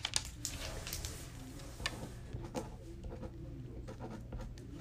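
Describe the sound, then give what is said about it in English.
Handwriting of letters, likely pen or pencil on paper: many quick, faint scratchy strokes and light taps in an irregular rhythm over a steady low hum, with no talking. “as soon as I turn her back around, I want you to write the letters that you saw.”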